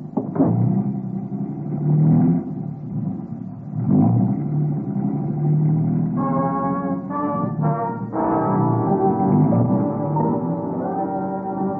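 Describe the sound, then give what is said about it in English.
A car drives through the downtown streets of Bangkok, its engine a steady low rumble that swells with revving. Midway come a few brief tonal, horn-like blasts, with no talk. “Lum drove us right through the downtown district of Bangkok toward the palace”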